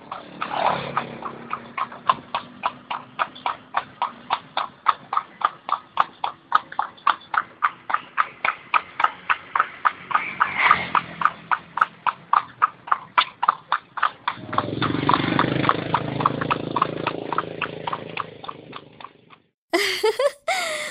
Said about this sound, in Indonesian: Untuk kelompok merah, coba kalian tirukan bunyi langkah kuda yang sedang berjalan.